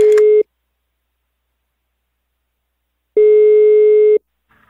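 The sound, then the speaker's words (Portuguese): Telephone ringback tone as a call is placed: a steady, mid-pitched tone cut off at the start, then, after a long silence, a second tone lasting about one second, with a faint trace of sound at the very end. “eu vou ligar para o Zanilton.”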